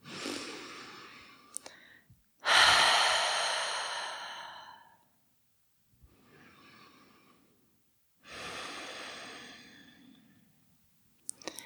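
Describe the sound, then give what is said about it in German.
Deep breaths go in and out through an open mouth during a guided relaxation exercise. Two quieter, airy breaths alternate with two loud, long, sighing exhales, and there is no talking. “nimm hier ein paar tiefere Atemzüge ein und aus. Gerne mal durch den geöffneten Mund.”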